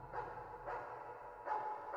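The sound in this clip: Dog barking as a random background noise during night-time play in a video game: four faint, muffled barks at uneven intervals over a low hum.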